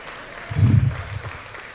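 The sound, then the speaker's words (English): Audience clapping at a Sunday morning gathering as someone comes out: a brief burst of applause that swells and fades over about a second, with no voices over it. “I'm never sure what to think when you start clapping when I come out.”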